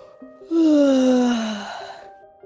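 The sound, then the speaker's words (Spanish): A storyteller voices a slow, drawn-out yawn for a little seed waking up, one long breathy vocal sound with a clearly falling pitch that fades out over about a second. “Bostezaba la semillita”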